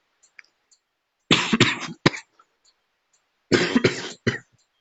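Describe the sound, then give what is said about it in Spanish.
Coughing from someone recovering from a severe flu, in two separate bouts of a few harsh, loud coughs each, with quiet between them and no talking. “Claro, a veces voy a toser un poquito.”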